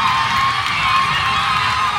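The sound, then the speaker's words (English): Steel band players and fans cheering a competition win: a loud, dense, continuous roar of shouts and whoops that stays steady throughout. “And that is the sound of an ecstatic steel band winning Panorama for the third year in a row.”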